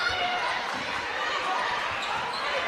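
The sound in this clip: Basketball dribbled on the court during an MTSU versus DePaul women's college game: a run of quick bounces beneath a steady wash of crowd noise and voices.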